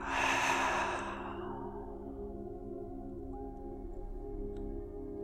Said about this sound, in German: Noch einmal einatmen. Noch ein zweiter Atemzug obendrauf. Und lass es aus.